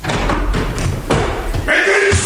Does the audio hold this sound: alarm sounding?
no